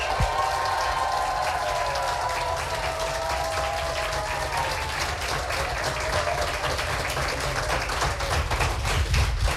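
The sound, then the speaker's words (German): Audience applause at a German-language live event, dense and steady clapping that stays loud and even for the whole stretch. “obwohl ihr gerade fantastisch applaudiert habt”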